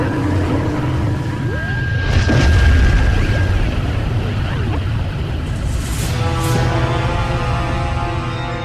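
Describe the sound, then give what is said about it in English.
A sci-fi explosion of a planetoid with its plasma expansion wave: a loud, continuous low rumble that swells in the middle, with sweeping electronic tones rising out of it toward the end. “The planetoid Megiddo has reached the alien fleet and exploded. Plasma expansion wave is approaching at speed standard by 14. Here it comes!”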